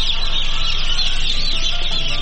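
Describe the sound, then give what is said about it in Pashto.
A dense flock of chickens at a poultry egg production farm in Khost, with loud, continuous overlapping clucking and cackling that holds steady throughout and no talk over it. “په خوست کې د چرګوړو د تولید فارم ته سر ورښکاره کړو”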